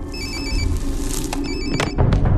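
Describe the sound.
A telephone rings with two trilling, bright electronic bursts separated by a short gap, over a low background rumble with a soft thump near the end.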